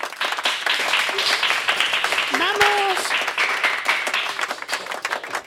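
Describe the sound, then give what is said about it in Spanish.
Audience applause fills the space: dense, steady clapping from a crowd, holding at an even level throughout with no break. “Muy bien, un fuerte aplauso.”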